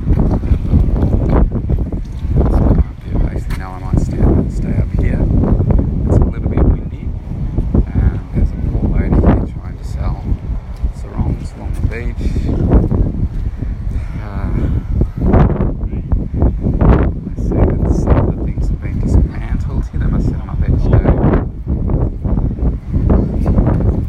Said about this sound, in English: And out to the beach. I don't know if you can hear it in the background, but I'm going to go down onto the sand.